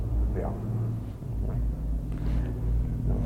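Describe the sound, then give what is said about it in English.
Low, steady rumble of truck noise outside, droning continuously through the whole clip, with faint voices surfacing briefly at a few moments. “truck noise out there never fails.”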